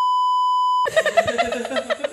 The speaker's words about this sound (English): This is fun. I didn't know you had a beep.